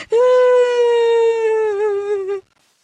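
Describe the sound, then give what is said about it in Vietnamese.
A child bursts into frightened crying after finding blood from a scraped forehead. It is a single high, sustained wail, steady at first and wavering near the end before it stops abruptly. “Và nó sợ hãi, oà khóc.”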